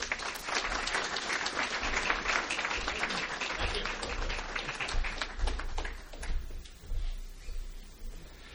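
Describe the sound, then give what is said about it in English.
Audience applause welcoming a guest speaker to the stage: dense, steady clapping that holds strong for several seconds, then thins out and grows more scattered toward the end. “Ladies and gentlemen, please join me in welcoming Dr. Michael Byers.”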